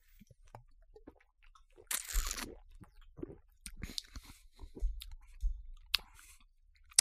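Crunching and chewing of a crunchy bite that smells of citrus and hops, a few loud crisp bursts and softer chews spread unevenly, with no talking.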